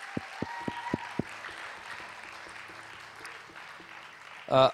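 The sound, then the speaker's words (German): Audience applause for interpreters working in booths: a steady wash of clapping throughout, with a few sharp knocks near the start and a louder burst right at the end. “Aber geben wir auch einen Applaus unseren Übersetzern in den Kabinen, die immer da oben übersetzen. Einen kräftigen Applaus.”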